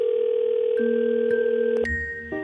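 A steady telephone dial tone sounds after a call has been cut off. The continuous electronic tone hums alone and shifts pitch a few times.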